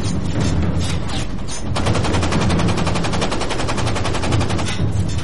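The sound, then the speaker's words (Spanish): Sustained machine gun fire sweeps a ship's deck during a naval clash after a submarine collision. A dense, rapid rattle of shots runs loud and continuous for the whole stretch, without talk. “Lo único que pudieron hacer fue ver cómo los disparaban.”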